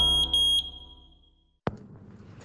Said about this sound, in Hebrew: התקינו גלאי עשן בביתכם.